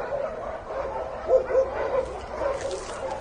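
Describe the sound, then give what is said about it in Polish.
Dogs barking at an animal shelter, heard from a street nearby: a dense, continuous chorus of overlapping barks and yips over steady background noise. “ulicą Pamiętną w kierunku schroniska i słychać już szczekanie zwierzaków”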